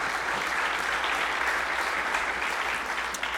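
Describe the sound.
A church audience claps its hands in dense, steady applause that holds an even level throughout, with no speech on top.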